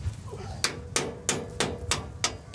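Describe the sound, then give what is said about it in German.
Hammer blows drive a bolt back into place on a machine. The sharp metallic strikes land in a steady, regular rhythm over a low background rumble, with no talking. “Jetzt müssen wir den Bolzen hier wieder reinpulen,”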